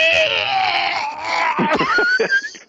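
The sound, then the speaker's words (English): A voice imitates a machine's motor squealing hideously as it starts up. A strained, high, wavering whine breaks into choppy, gurgling bursts as the sound dies away. “And when it starts up, it just makes this hideous squealing sound. Just terrifying, awful squealing sound, and then finally just goes”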